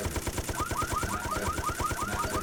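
An automatic gun fires in a video game, a rapid, evenly paced stream of many shots with a rattling, mechanical edge, moderately loud and without talk.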